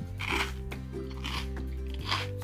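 Crisp crunching as someone bites into a nori tempura snack, with three brittle crunch bursts spaced about a second apart over a steady low hum.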